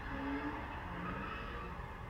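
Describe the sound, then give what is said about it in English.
Engine and tire roar from fast cars doing donuts in a busy downtown San Diego intersection on a Saturday night, a faint, steady rumble with no clearly separate events. “Fast cars doing donuts in the middle of one of San Diego's busiest intersections.”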